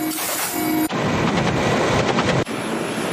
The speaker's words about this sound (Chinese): 搭载舱门机枪的运输直升机快速隐蔽抵近。蔡嘉诚熟练操纵机枪瞄准海上预设目标，实施火力压制。